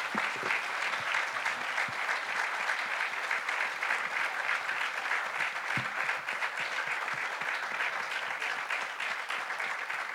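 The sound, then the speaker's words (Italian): Applause from an audience after a speech at a public meeting: dense, even clapping that holds steady for about ten seconds at a fairly faint level without building or fading. “giustamente un grande applauso”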